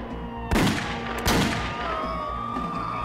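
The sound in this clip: Two sharp gunshots ring out about a second apart during a shooting in which a woman fires on a police officer and people lying outside. Each bang is loud and abrupt, with a lingering tail over a steady low hum.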